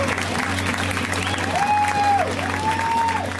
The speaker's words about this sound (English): Let's hear it right now for Kate Berlant, guys. Give it up for Kate.